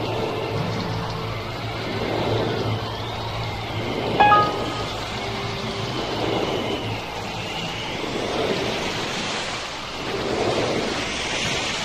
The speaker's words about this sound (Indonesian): Pinocchio, Geppetto dan Jimmy Jangkrik tersembur keluar dan mereka berenang di lautan luas